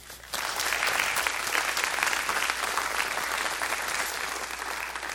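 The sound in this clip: Audience applause greets a speaker coming to the stage at a church service, bursting in suddenly and holding as a loud, dense, sustained wash of clapping.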